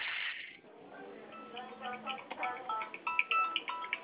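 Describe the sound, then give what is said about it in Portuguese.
A mobile phone rings while a call sits on hold, its short, high electronic tones coming near the end over a murmur of background voices and line noise. “Ai, Jesus, quem está me ligando?”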